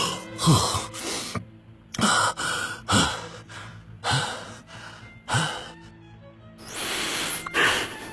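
Heavy gasping breaths from someone who has just surfaced after being held underwater, fighting for air. Several sharp, ragged inhalations and exhalations come in an uneven rhythm, fairly loud and with no other sound.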